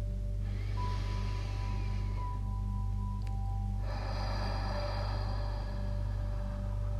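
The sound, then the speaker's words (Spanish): During a guided relaxation exercise, a person takes a deep breath in and then lets out a slow, longer exhale. Both soft, airy breaths sit over a steady low drone and faint sustained tones. “Relájate. Y respira profundo.”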